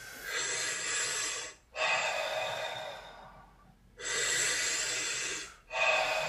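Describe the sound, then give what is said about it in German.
Deep breathing in and out during a guided breathing exercise: long, airy breaths alternate in a slow rhythm, each one a soft, sustained rush of air followed by a brief pause, with no talking over them. “Atme tief ein und beim Ausatmen lass los.”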